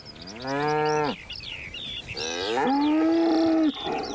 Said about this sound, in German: Auf der Weide nebenan grasen Kühe.